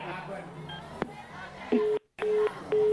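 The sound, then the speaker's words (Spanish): Telephone tones as a number is dialed, with a few steady electronic beeps separated by a short silent gap, following a stretch of faint background voices. “Ahorita le vuelvo a marcar, a ver sí, qué dice.”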